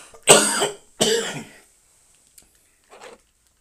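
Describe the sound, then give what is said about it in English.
Someone clears their throat because the weather is changing, with two loud, harsh bursts in quick succession followed by a couple of faint small noises, and no talk. “Excuse me, had to make sure I cleared my throat for that.”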